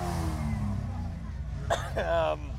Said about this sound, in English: We've got this crazy VL in front of us, turbo, spitting rubber all over us.